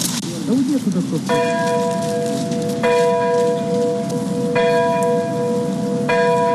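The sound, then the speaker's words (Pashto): Church bells ring early in the morning in Ukraine to mark the thirtieth anniversary of the Chernobyl nuclear disaster. Four evenly spaced, resonant strikes sound over a steady background hiss. “د پیښې د کلیزې په یاد په اوکراین کې سهار وختي زنګونه ووهل سول.”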